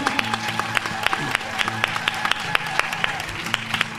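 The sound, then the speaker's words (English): An audience applauds the volunteers at an event. The crowd claps steadily and continuously, with many individual sharp claps standing out across the whole stretch. “So if you're volunteers, give yourselves a hand.”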